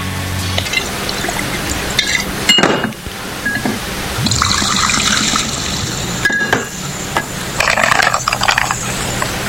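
Liquor pouring into a glass, a steady wet splashing trickle with a few brief louder surges, heard alone without talk.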